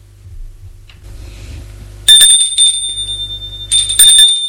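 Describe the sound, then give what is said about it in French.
A doorbell rings twice: two bright, high, metallic chimes that ring on and fade briefly, separated by a pause, following a low, quiet hum. “On a sonné à la porte.”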